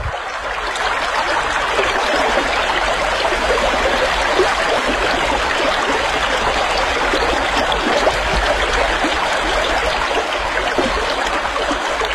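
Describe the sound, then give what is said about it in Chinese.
Water rushes and burbles steadily as a young horse wades across a river, a dense, continuous flowing sound with no pauses and no voices. “他下了河，小心地趟到了对岸。”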